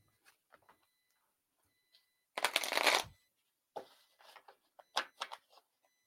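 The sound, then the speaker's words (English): A playing card is drawn from a deck with one loud papery swish lasting about half a second, followed by a few softer scuffs and taps of card handling. “Kelly needs a card.”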